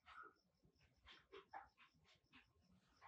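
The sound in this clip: Dogs give many short, faint yips, whimpers and soft barks in an uneven rhythm, with no talk.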